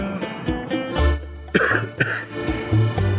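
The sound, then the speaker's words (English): A few harsh, abrupt coughs from someone struggling with a persistent cough, sharp bursts standing out over a low steady hum, with no talking. “I got to do something with this cough.”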